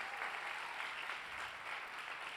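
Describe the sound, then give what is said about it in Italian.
Faint applause from a church audience for members from Mottola, a soft, even wash of clapping with no distinct single claps, steady from start to finish. “Posso vedere le mani dei mottolesi? Vogliamo fare un applauso a loro? Che bello avervi!”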